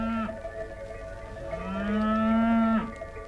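Grazing cattle moo: a short moo trails off at the start, then a long, loud, drawn-out moo rises slightly in pitch before breaking off, with no voices.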